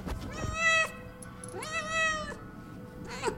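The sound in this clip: A pet cat meows three times: two drawn-out, harmonically rich calls and then a short third one, fairly clear and alone.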